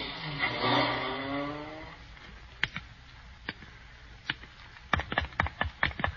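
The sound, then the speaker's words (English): Taxi cab engine revving as it drives away, its sound fading over about two seconds, followed by quiet background and a series of sharp clicks and taps. “Here's my house, cabbie. Pull up. That was real driving, buddy. Keep the change.”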